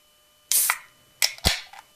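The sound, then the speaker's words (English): An energy drink can being opened: a sharp crack and fizzing hiss, then a few more short, bright snaps and hisses in quick succession. “Okay, that's how you know we're opening the energy drink.”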